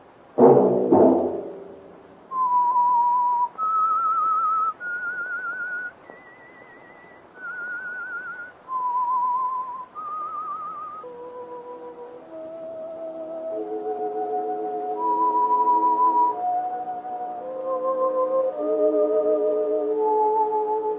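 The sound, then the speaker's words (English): Whistled theme tune opening a radio mystery-drama program: a human whistler carries a slow melody of sustained notes stepping up and down, later joined by soft instrumental accompaniment. “That whistle be your signal for the Signal Oil program, The Whistler, each Wednesday night at the same time.”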